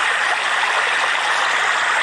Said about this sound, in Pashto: د ځایي اوسیدونکو په وینا منډول ډنډ ته د یادې ولسوالۍ له بېشمیره درو اوبه راځي